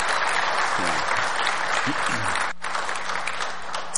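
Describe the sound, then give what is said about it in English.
Applause welcomes a speaker to the front at a Sunday-morning church service in Eagle River, Alaska: dense, steady clapping from the audience that holds at an even level for the whole stretch, with faint voices briefly mixed in. “Let's give a welcome to our very own Dan Pearson. Can we do that? Thank you.”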